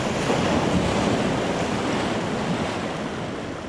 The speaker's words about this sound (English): the Severn bore, a tidal surge caused by the funnel shape of the Severn and the enormous difference between its high and low tides, as much as 50 feet. The wave travels upstream, against the current.